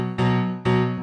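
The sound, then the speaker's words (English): A low B power chord played on a piano, struck twice in quick succession, each strike ringing full and dark with rich overtones before the next. “They're just crunching along on a power chord in B. On the piano, that would sound like this.”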